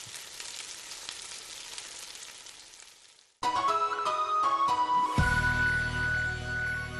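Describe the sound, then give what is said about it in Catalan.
Food sizzling in a deep fryer, a steady crackling hiss for about three seconds, then an abrupt cut to loud, bright electronic ringing tones and a sustained musical chime. “sí que has posat menjar a la fregidora”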